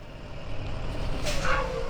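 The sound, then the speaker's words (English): A yellow school bus drives across a high school parking lot, giving a steady low engine rumble throughout, with a brief airy hiss and a faint whine partway through. “Glistening in the morning sunlight, a yellow school bus drives deliberately across the Westland High School parking lot, just outside of Columbus.”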